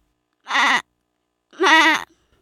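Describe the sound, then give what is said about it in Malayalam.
Goat bleating twice, a short wavering call followed by a longer, louder quavering one after a pause. “Aadu.”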